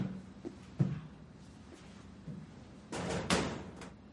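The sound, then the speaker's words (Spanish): A gun cabinet door is closed, heard as quiet knocks and shuffling followed by a louder clunk and rattle near the end, all faint and without voices. “Saca las fotos y las bragas y las deja en el armero. Cierra el armero.”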